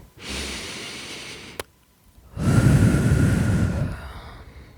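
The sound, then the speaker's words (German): Slow guided breathing: a long, steady inhale through the nose, a pause, then a louder, breathy exhale through the mouth that fades out. “Durch die Nase einatmen und den Mund wieder aus.”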